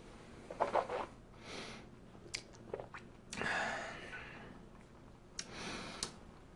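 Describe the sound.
Soft slurping sips and wet lip smacks come from someone tasting bourbon, with a few scattered mouth clicks and swallowing sounds spread over several seconds. The sounds are faint, and no one speaks.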